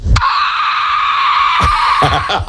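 A man squeals in a squealing contest with a loud, high-pitched, sustained shriek that holds steady for over a second. It then breaks into shorter, choppy squeals.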